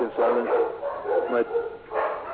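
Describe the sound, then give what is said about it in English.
Several dogs in a household of nine bark together in three muffled bursts, their overlapping yips and barks rising and dropping in loudness. “I have 9 dogs here and they all decided to bark at the same time.”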